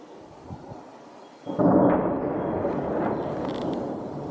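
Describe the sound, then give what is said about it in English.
Missile strikes exploding in a violent barrage during an attack on Odessa, launched from sea and land: a sudden loud blast erupts and is followed by a sustained heavy rumble. “The missiles exploded in a startling, violent barrage. About six strikes lit up the sky.”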